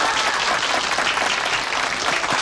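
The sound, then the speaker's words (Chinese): Audience applause at a community gathering about signing up for yangko dancing: dense, steady clapping from many hands that holds at an even level for the whole moment. “鼓掌。”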